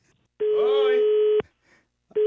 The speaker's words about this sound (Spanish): Oh, se colgó la llamada